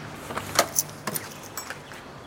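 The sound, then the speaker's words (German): Keys jangle and click in the second lock of a back entrance door, with a few sharp, faint metallic taps scattered across the moment. “Dann ist es noch ein Schlüssel, das zweite Schloss. Ich bin hier reingegangen.”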